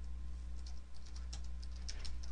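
Quick, light clicks of typing on a computer keyboard as code is written into a program, many keystrokes in an uneven rhythm over a steady low hum.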